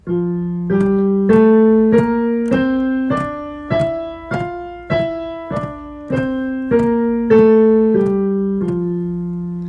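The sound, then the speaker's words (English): An F major scale for sopranos and tenors, played as struck, decaying tones rising one step at a time from the low keynote to the octave and back down again, about fifteen evenly paced notes with no voices. “These are the scales that should be prepared for sopranos and tenors. The major scale is in F major. It sounds like this.”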